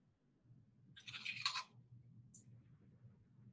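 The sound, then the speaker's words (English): Chewing a bread sandwich: faint crunchy bites in one short burst midway over a quiet low hum, followed by a tiny click. “Can you come back and eat that sandwich in front of the camera one more? time?”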